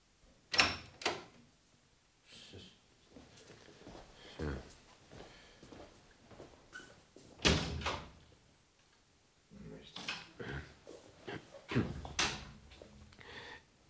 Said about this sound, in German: Mit seinem Passepartout war Marjorie Slaters Wohnung rasch geöffnet.